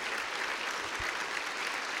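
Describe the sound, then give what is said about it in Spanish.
A church audience applauds during a worship service, with dense, steady clapping that holds at an even level from start to finish. “Aplauso para el Señor, démosle la gloria por siempre.”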